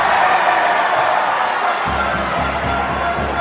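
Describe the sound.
A basketball crowd reacts angrily to a free throw with a loud, steady wash of crowd noise. Partway through, a low droning tone like booing joins the din.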